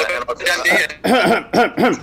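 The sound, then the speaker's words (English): Throat clearing and coughing from someone with something caught in the throat: several rough, voiced bursts in quick succession, fairly loud and filling the whole moment. “Sorry, just had something caught in my throat there.”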